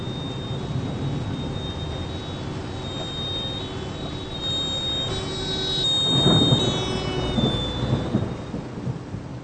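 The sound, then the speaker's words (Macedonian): A thunderstorm in Bavaria with heavy rain, a steady dense hiss of rainfall throughout, and a deep roll of thunder swelling in the middle before easing back. “Tief Tim bringt heftige Regenfälle und Gewitter nach Bayern. Regen, Gewitter. Das merke ich auch so.”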